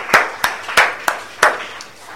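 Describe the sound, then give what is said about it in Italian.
Applause from an audience at the close of an evening performance: a handful of sharp, separate handclaps at a steady, unhurried pace, each ringing briefly before the next. “Quindi ringrazio, un applauso ancora. Un applauso, dai”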